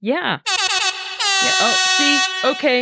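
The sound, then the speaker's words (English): Air horn sound effect blaring in a few loud, brassy blasts, one long sustained note in the middle flanked by shorter bursts, each with a rich, buzzing harmonic tone. “The air horn blasts your eardrums out when I skip over stuff and I put stuff off.”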